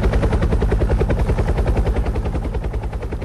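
A traffic-report helicopter's rotor chops in a fast, even rhythm, loud and without talk, easing slightly toward the end.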